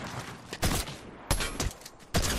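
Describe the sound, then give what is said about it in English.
Shotgun fire in a video game: several loud, sharp blasts with noisy tails, spaced unevenly over a constant rumbling background. “And shotgun and shotgun and shotgun. Made me waste all my ammo, dude.”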